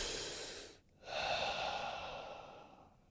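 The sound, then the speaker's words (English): An animal takes a deep breath after shaking off stress: a long breathy rush of air, a brief pause, then a second sustained breath that slowly tapers off. No voices are present. “when it's done, it's going to take a deep breath and then calm down”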